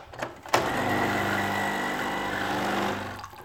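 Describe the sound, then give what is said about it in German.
A coffee machine brews the morning coffee: a sharp click, then a steady buzzing pump hum with a low whirring drone that runs evenly for about three seconds before tapering off. “Ja, und das andere, was morgens wichtig ist, elementar, das ist der Kaffee und den mache ich mir jetzt erstmal. So, Kaffee läuft.”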